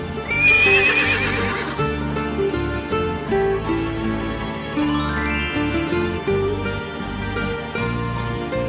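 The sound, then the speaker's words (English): A horse whinnies twice, a tall brown horse on a farm, each call a shrill wavering neigh over bouncy children's song music with a steady beat and clip-clopping hooves. “The horse, he makes a sound like this, neigh, neigh.”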